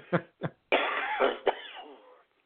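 Two short, sharp coughs come first, then a longer rasping, breathy throat sound that swells and slowly trails away into silence.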